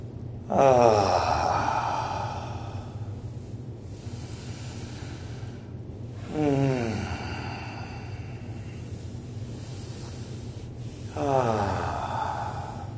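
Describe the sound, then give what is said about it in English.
Three deep, sweeping breaths drawn in and let out, each a breathy swell with a soft voiced edge, spaced evenly several seconds apart with quiet room tone between them and no talking. “Let's take three sweeping breaths and just let them go.”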